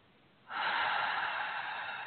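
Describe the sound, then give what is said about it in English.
A deep breath drawn in during a calm peace meditation: a soft, airy inhale begins after a short quiet pause and then holds steady, breathy and moderately loud, with no talk. “just taking a nice deep breath, breathing in the spirit, the air, inspiration”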